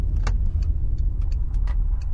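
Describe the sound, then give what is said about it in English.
Steady low rumble of a car's engine and road noise as the car pulls over, continuous and fairly loud throughout. “The car pulls over.”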